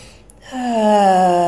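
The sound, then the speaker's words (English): A deep inhale taken while seated in a guided meditation: a long, partly voiced breath with a tonal, moaning edge that swells and then holds steady. “just taking some deep inhales”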